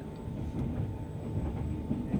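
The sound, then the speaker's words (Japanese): Steady low rumble of a Japanese overnight sleeper express train running on rails toward Ueno via the Tsugaru Strait and Tohoku lines, a continuous dense drone with no talk. “津軽海峡線東北線経由、寝台特急北斗星上野行きです。”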